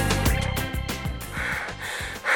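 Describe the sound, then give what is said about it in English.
Heavy panting from someone out of breath after running, a fast, steady run of loud voiced gasping breaths with no pause. “you are totally out of breath.”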